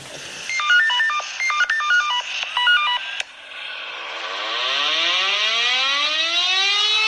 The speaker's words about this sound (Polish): Wtedy wiadomo, że wyje u nas syrena i się zbiegamy, tak?